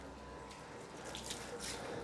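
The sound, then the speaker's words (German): Warm water at 28 degrees being poured over tortoises as they are washed, ahead of one tortoise's 100th birthday: a faint, steady stream of running and splashing water, with no voices. “Das ist wunderbar warmes Wasser, 28 Grad, so wie die Schildkröten das lieben. Die werden natürlich nicht nur zu Leopolds Geburtstag gewaschen”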